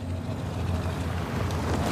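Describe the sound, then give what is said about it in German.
A car's engine rumbles as the car pulls up and stops, giving a low, continuous drone that stays fairly even throughout. “Ein Auto hält.”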